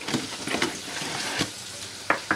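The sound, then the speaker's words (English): Fry bread made from flour, baking powder and Crisco sizzles in hot oil in a home kitchen, a steady crackling hiss broken by a few sharper pops. “She has a friend in the kitchen, teaching her how to make fry bread, flour, baking powder, and Crisco.”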